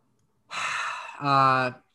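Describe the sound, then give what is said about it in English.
A long breath out before a breath-holding contest, starting as an airy exhale and ending in a voiced, sighing tail, loud and alone. “When you said lung and you breathe it out.”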